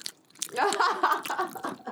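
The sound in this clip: People chew mango, making moist, smacking bites and small crunchy mouth clicks at close range, fairly quiet and irregular.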